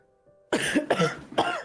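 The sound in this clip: A person gives three harsh, separate coughs with a throat-clearing rasp after a brief near-silent start.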